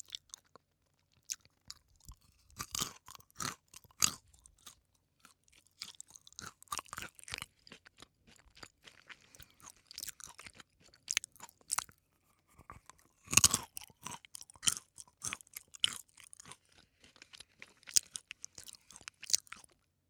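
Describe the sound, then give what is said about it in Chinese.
Someone chews crunchy nuts such as almonds. Many quiet, sharp crunches and bites come in irregular bursts with short pauses, and one stronger crunch falls near the middle. “你们好怪啊，老喜欢听我吃东西。”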